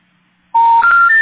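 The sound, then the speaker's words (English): Electronic telephone tones: after a brief silence, three loud, steady beeps follow one another without gaps, each a step higher in pitch than the last. “The number you dialed is not in service.”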